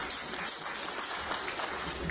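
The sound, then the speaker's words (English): Audience applause at a live afternoon talk: a steady, dense wash of many hands clapping that holds at an even level for the whole stretch, fairly quiet, with no voices over it. “That you missed a great spot to applaud. Go ahead. What are you waiting on?”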